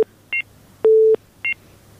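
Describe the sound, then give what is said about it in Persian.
Telephone line tones on a call that has just dropped: short, high double beeps around one longer, lower steady tone, all clean and electronic over a faint low hum. “بله تماس از اینا قطع شد.”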